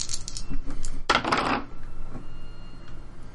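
Dice roll during a tabletop role-playing game, clattering and tumbling across a hard surface in a quick burst of many sharp clicks that fades into quieter ticks, with no voices.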